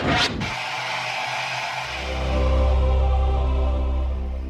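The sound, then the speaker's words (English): A TV production company's logo sound opens with a brief burst of static hiss. A low harmonic tone then swells in loudness and holds steady, full and resonant, until the end. “you'd know that was the sound of the logo for HBO.”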